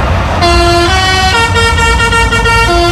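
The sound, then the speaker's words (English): A lorry's musical horn plays a children's song melody while the truck carries pods from a funfair big wheel. Loud, brassy tones step up and down in a quick, bouncy run of notes, steady and alone. “What noise does your horn make when you're carrying a load of pods from the big wheel at Hull Fair? This noise.”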